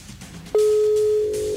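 Telephone ringing tone as a call is dialed: one long, steady, mid-pitched tone of about a second starts abruptly partway through over faint background noise.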